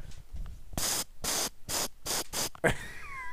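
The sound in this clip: Mace spray hisses out of a canister in five short, loud bursts in quick succession, each a sharp rush of spray separated by brief gaps.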